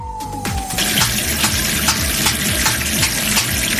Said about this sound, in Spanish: ese es el sonido de un grifo